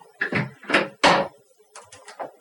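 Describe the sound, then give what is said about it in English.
A door being closed, heard as a series of rustling bumps and knocks, with one sharp, louder impact near the middle and a few softer knocks after it. “I'm going to close the door real quick.”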